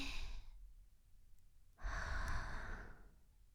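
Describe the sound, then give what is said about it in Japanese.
Breathing during a guided relaxation exercise: a brief breath trails off at the start, then after a pause comes a longer, airy breath lasting just over a second, soft and unvoiced. “吐くイメージ。息を吸って吐いて、”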